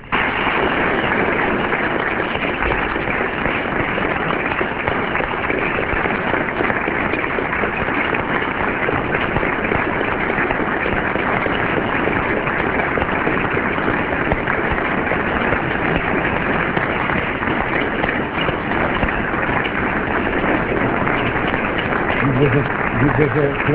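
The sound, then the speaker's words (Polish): Students clap in a corridor after a lecture given by a doctor. The applause is dense and steady, with no break from start to finish. “Klaszczą również studenci tam na korytarzu.”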